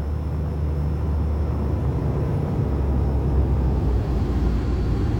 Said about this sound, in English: Ladies and gentlemen, we will be landing at Gander in 5 minutes.